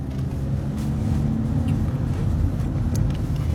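Car driving on a road trip: a loud, continuous low engine and road rumble that holds steady from start to finish with no talk.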